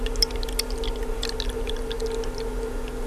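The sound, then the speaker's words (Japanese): Hot water poured from a ceramic vessel into a teapot holding tea leaves: a thin, steady stream with a sustained ringing tone and light splashing ticks above it, even in loudness. “ちょっとなんかいいですね、この注ぐ音もね。なんか少しだけ聞いていただきましたけど”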